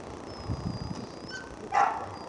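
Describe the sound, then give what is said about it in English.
Dogs whimper and bark as they are put into kennels and taken away, with a few faint high yips and short bursts over steady background noise. “As she watched her dogs get put into kennels and taken away, Barbara seemed to regret asking for help.”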